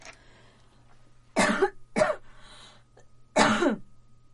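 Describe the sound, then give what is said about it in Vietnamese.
Three harsh coughs from a throat that has been weak and easily irritated since Covid. Two close together come first, then a third after a pause, each loud and abrupt against a quiet background. “Nhẹ tí thôi có thể sặc, có thể ho được.”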